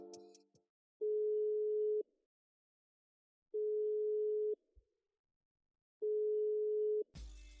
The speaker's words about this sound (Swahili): Ngoja nimpigie simu alafu tuweze kupiga mastori kibao.